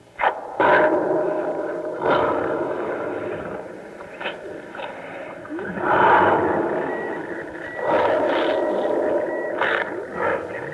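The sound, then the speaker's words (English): A Ford pivoting pillar body welder, a welding machine building car bodies, works in several harsh, noisy bursts of hissing and scraping that swell and fade in turn, with no one talking. “This is the sound of the monster at work. That's Ford Motor Company's name for the pivoting pillar body welder. A unique welding machine that no one else has.”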